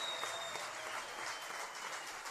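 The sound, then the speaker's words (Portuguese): Audience applause welcoming a percussionist and singer into a music circle: a dense, steady wash of clapping that holds at an even level throughout, with no voices. “Para os aplausos de vocês.”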